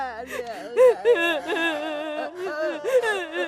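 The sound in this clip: A son crying in grief, with a wavering wailing voice whose pitch swoops up and down in sobbing bursts, broken by short catches of breath.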